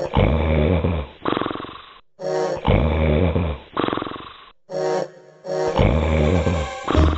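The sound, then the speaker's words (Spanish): A fairy-tale ogre back in his room snores loudly, loud enough to shake the house. Deep, rough, rasping snores repeat in a steady rhythm with short pauses between them. “volvió a su habitación y enseguida se oyeron unos ronquidos que temblaba toda la casa.”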